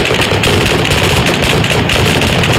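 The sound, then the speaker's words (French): Police fire live ammunition at protesters in Baghdad: loud, dense automatic gunfire crackles in a continuous rapid stream from start to finish. “Ici à Bagdad, la police disperse à balles réelles les manifestants.”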